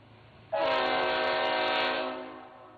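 A train horn sound effect: one loud, sustained harmonic blast that starts abruptly, holds steady for nearly two seconds, then fades away.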